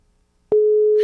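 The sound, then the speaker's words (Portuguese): A telephone line tone sounds while a call is placed to Diego. After half a second of quiet, a single steady mid-pitched electronic tone begins and holds unbroken and loud to the end. “quando receberem uma ligação do Diego, vou ligar pra ele”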